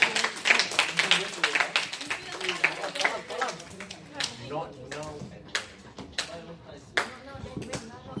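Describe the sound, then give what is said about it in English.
Audience applause, a scattered patter of claps mixed with talking voices, thinning out toward the end. “Give a round of applause to Alfred once again.”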